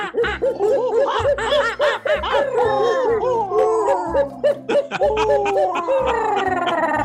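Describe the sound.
A human voice imitates a nighttime animal mating call, giving many quick hooting whoops that rise and fall in pitch in a lively, repeating rhythm, broken by a few laugh-like bursts.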